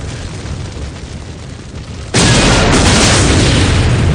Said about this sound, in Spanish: El coche explosiona por segunda vez en medio del puente.